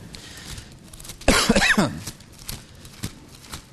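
Someone delivering a sermon coughs from a tickle in the throat. A brief, fairly loud burst of rough coughing and throat clearing breaks an otherwise quiet stretch.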